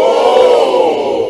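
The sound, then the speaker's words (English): People in Arkansas cheer together as they look up at a total solar eclipse. A loud, continuous swell of many shouting voices holds steady and eases slightly toward the end. “This was the sound of people in Arkansas looking into the sky.”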